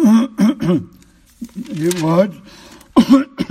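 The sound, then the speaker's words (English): Throat clearing in a few short, voiced, rasping bursts, with a longer, grumbling clearing in the middle and more bursts at the end. No other sound is heard. “excuse me, got this catching in my throat”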